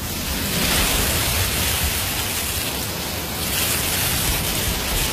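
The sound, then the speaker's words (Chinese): A conch shell held to the ear gives the sea-like sound, a steady, fairly loud rushing hiss that swells and eases slightly. “妈妈说，把海螺放在耳边，就能听到大海的声音。你听。”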